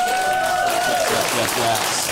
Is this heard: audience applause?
yes